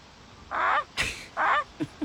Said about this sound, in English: The Canada goose.